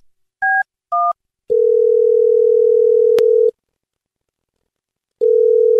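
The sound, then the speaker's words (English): Telephone keypad tones and a dial tone while a number is dialed: two short beeps, then a steady tone that holds for about two seconds and cuts off, followed by silence and the tone starting again. “I'm trying to dial JJ's line”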